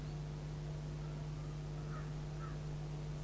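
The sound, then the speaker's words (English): Crows caw in a still, quiet setting, two faint caws close together standing out over a steady low background hum. “this here, this cawing of the crows, and all is silence.”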